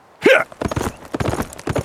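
Hooves of a horse being ridden away, a rapid, irregular clip-clop of many hoofbeats that stays fairly loud and busy throughout.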